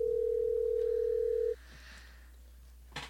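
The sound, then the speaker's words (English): A telephone dial tone, heard while placing a call, hums steadily for about a second and a half and then cuts off. A quiet line with a low hum follows, and a brief click comes near the end. “Go ahead and dial her up”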